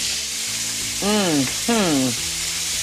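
Partly cooked steak sizzles in a hot pan, a steady, bright, crackling hiss that continues throughout at an even loudness.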